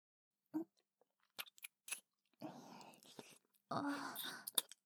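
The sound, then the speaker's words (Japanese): Kissing sounds on a sofa: soft, wet lip smacks come in a few short bursts, mixed with breathy whispering and quiet sighs between the kisses. “さあ、勇者様はこちらのソファーへ。はじめにキスさせていただきます。”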